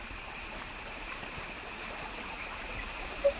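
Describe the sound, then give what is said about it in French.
A small stream of running water in woods gives a soft, steady, faint rushing babble, with a constant high-pitched insect drone over it and a single brief tone near the end. “Et c'est de l'eau que j'entends, là. C'est un cours d'eau.”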